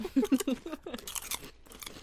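Crunching and chewing on crisp chips: a quick burst of loud, sharp crunches at the start, then softer, scattered chewing crackles that fade toward the end.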